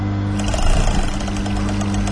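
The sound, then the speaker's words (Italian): A sewing machine starts to sew during a lesson on using work machines, giving a loud, steady mechanical whir over a constant low hum with a brief swell in the middle and no talk. “la macchina inizia a cucire.”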